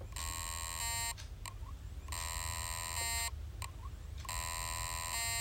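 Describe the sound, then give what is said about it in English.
Electronic beeping in three long, loud bursts of about a second each, bright and harmonic-rich, separated by short gaps with faint chirps, over a steady low hum. “Beeping sound example 1.”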